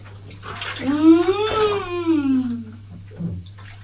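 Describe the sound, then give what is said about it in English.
Water runs into a bath during bathing, a steady wash of noise with a low hum beneath it, while a long voice-like tone rises and then falls over it. “Are you sure the water's warm? Oh, it's all running down your arm, isn't it?”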